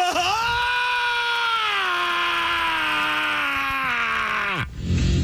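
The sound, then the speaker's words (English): A voice imitating a man's laugh that came out as a straight scream: one long, loud, shrill wail that holds a high, steady pitch, slowly sags, then drops sharply and cuts off just before the end. “his laugh was not a laugh. It was a straight scream. So anytime there would be a punchline or anything funny, he would go,”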